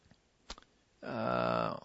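One crisp computer mouse click, brief and sharp, followed about half a second later by a sustained voiced sound from a person.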